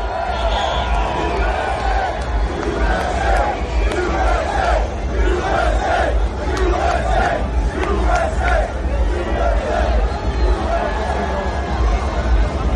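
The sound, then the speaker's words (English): Loud crowd at the Formula One Miami Grand Prix, cheering and shouting in a reception for President Trump: a dense, continuous roar of many voices with rally-like yells rising out of it, steady and intense for the whole stretch. “Pretty good. It's a loud audience. It's almost like they're having a rally.”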